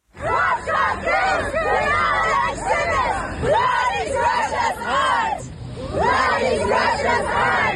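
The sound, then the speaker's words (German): A protest crowd at an art biennale preview chants "disobey" in loud, rhythmic shouted phrases over a babble of voices. The chanting breaks off briefly near the end, then resumes. “Es wurde weiter skandiert, disobey, disobey, also wehrt euch, leistet Widerstand.”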